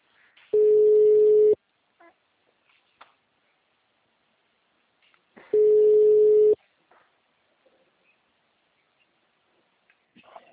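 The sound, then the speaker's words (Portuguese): A telephone ringback tone on an outgoing call: two steady, low, one-second tones separated by about four seconds of near silence. “Espera aí que tá chamando aqui.”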